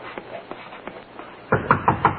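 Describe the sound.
Police knock on a door: a few evenly spaced, moderate knocks, then a louder, quicker run of heavy pounding.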